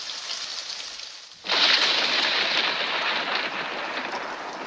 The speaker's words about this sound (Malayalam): മഴയൊന്ന് തോരട്ടെ ടീച്ചറേ, ഇല്ലേൽ അവിടെ എത്തുമ്പോഴേക്കും ആകെ നനയും.